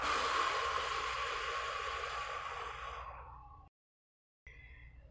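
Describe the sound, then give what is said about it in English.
Slow, deep breathing from a guided relaxation exercise: one long, airy, hissing exhale that gradually fades out, then a brief silence before a faint new breath begins. “Take a deep breath in and a long breath out.”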